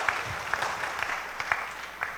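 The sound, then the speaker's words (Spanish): A crowd of community members applauds at a church gathering, with steady, moderately loud clapping and a few sharper claps standing out, and no voices over it. “Gracias, hermanos, fuertes los aplausos.”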